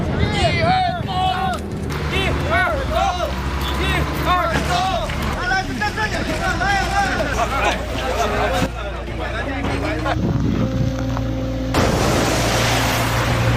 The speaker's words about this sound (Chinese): 黑龙江省宁安市境内的镜泊湖超出汛限水位，发生溢流。